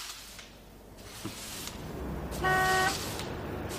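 An intercity bus at a bus station: a low engine and traffic rumble with one short, moderately loud horn blast midway.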